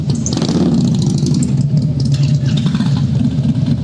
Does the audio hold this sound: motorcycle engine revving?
yes

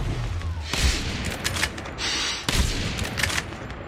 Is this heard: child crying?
no

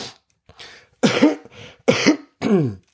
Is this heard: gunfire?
no

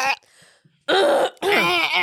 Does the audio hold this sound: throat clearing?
yes

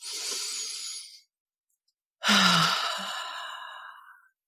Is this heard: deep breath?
yes

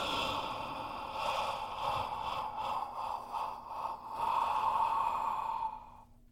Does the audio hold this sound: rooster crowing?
no

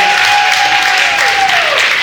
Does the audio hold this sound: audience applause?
yes

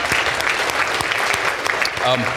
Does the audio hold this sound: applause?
yes

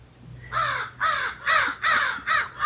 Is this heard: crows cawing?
yes

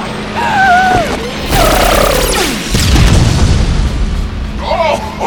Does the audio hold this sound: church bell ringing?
no

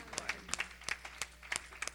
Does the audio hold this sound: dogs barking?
no

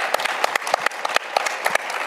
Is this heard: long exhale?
no

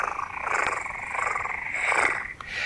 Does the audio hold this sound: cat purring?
yes

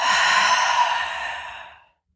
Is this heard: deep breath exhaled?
yes

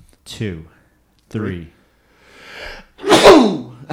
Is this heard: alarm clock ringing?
no

